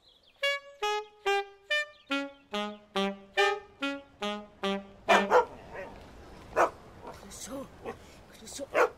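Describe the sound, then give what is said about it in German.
A dog barks and yelps in a quick run of about a dozen sharp, tonal cries whose pitch drops as they go, followed by a few rougher, noisier bursts. “Der beste Hund bei Interpol, ne?”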